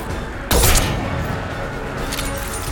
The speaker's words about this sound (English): Down goes one. Down goes one. Yeah, this sniper rifle thing is working pretty well.